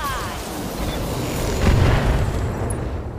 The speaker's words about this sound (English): Got some missile hits, but the PPC went wild.